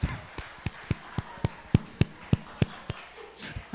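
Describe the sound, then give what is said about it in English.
Fingers snap as applause for a poem: a steady series of many crisp, quiet snaps at a fairly even rhythm over soft background noise. “Is that a snap? Is that snap worthy?”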